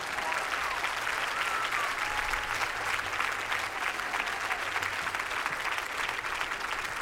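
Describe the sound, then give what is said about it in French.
An audience applauds performers, a singer and a duo, at a live show. The clapping is loud, dense and steady, running unbroken throughout with no talk over it. “je voudrais que vous fassiez beaucoup de bruit pour Iba Tawaji, mais également pour le groupe, le duo qu'on adore, Madame, Monsieur. S'il vous plaît, beaucoup de bruit.”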